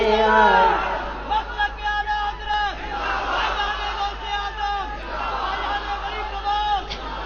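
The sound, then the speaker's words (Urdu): A crowd chanting a religious slogan for Ala Hazrat: loud massed voices rise in repeated rhythmic bursts, with brief dips between each chanted phrase and crowd chatter underneath. “آلہ حضرت کا نعرہ، لگ رہا ہے ہمیشہ لگے گا، مسلک”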